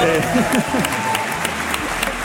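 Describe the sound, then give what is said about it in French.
An audience at the Grand Palais in Paris gives an ovation, with many steady claps running throughout and a voice speaking over the opening moments. “Et enfin, la troisième ovation, cher public, elle est pour vous, Anna Novion, car aujourd'hui c'est votre anniversaire.”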